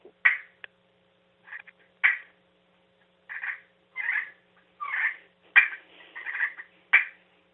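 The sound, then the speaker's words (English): Wild turkey clucks and purrs made on a friction call come as many short, raspy, high notes, some single and sharp, others rolling. They are irregularly spaced with silence between, and no voices are heard. “they would create friction on top of that surface to create these clucks and yelps and stuff. So that's what I'm using. So, you know, we're talking about the purrs and the clucks”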